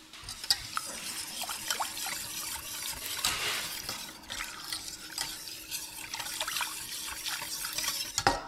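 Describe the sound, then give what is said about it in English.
A spoon stirs chocolate in a pot with cocoa powder and other ingredients until it melts, giving a steady scraping and swishing with many small clinks against the pot, and no talk. “I'm just gonna toss the chocolate in right now. And give it a stir until it melts.”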